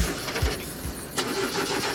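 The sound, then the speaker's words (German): A limousine engine is cranked with a few stuttering starter bursts before it settles into a rough, uneven running drone. No one speaks over it. “Draußen steht die Limousine für euch. Steigt mal ein und anlassen.”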